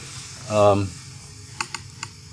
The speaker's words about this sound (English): Now, trying once again on this damn tape recorder.